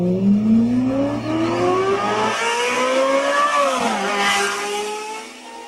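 A Ferrari Formula 1 racing car speeding past, its loud, high engine whine climbing steadily in pitch before dropping sharply as it passes, then fading slightly.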